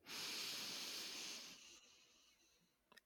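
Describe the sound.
A slow, deep breath drawn in: a long, airy, hissing rush that holds steady for over a second and then gradually fades, ending with a faint brief sound.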